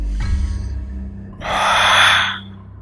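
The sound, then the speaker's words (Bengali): A man lets out an angry, heavy breath: a low rough intake, then a loud, forceful, airy exhale lasting about a second, with no speech. “এ কথা বলে লোকটা রেগে এমন একটা নিঃশ্বাস ফেলল যে তার গরম হাওয়াটা আমার গায়ে ছিটকে লাগলো”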